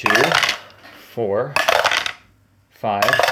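Dice clatter across a table as five dice are rolled in a tabletop role-playing game. A few short rattling bursts are separated by brief pauses.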